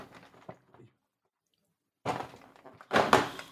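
Opening a small door of a beauty advent calendar: faint handling noises, a short silence, then two loud bursts of cardboard rustling and tearing.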